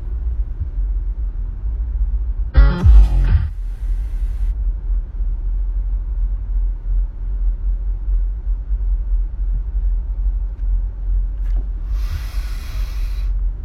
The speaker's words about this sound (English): Of course, now we're in the tunnel, so...